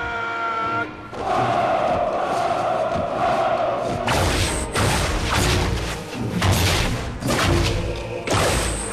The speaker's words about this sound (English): The order is given. Storm, cry the troops.